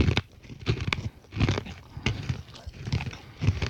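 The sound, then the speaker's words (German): Macadamia nuts crunch while being chewed: many irregular, crisp crackling bursts of moderate loudness come one after another with no talking over them. “Entschuldigung, Honey, ich höre nichts. Das knackt in meinem Mund.”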